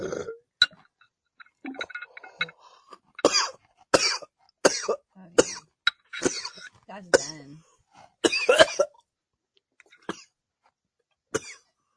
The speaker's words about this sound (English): Cough that way. You're coughing right on me.